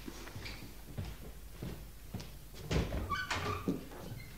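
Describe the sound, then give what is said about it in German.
Soft knocking on a door comes through faintly. A few evenly spaced dull taps give way to a denser, slightly louder cluster of knocks near the end. “Ach, dass die Leute immer klopfen müssen. Ich schrecke jedes Mal zusammen.”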